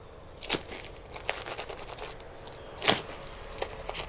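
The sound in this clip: Soft crinkling and crackling of a thick nighttime diaper being taped on, with a few sharp rustling bursts scattered across otherwise quiet moments.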